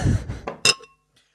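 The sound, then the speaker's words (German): Glasses of Ardmore and Highland Park Scotch whisky clink after a soft, muffled rustle. A couple of sharp, bright clinks follow, and the second leaves a brief ringing tone that fades into quiet. “Also ich gieße jetzt gerade zwei. Ah, wunderbar. Und zwar The Ardmore und Highland Park. Prost.”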